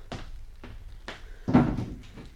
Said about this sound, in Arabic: اقفل الباب وراك يا مزاع.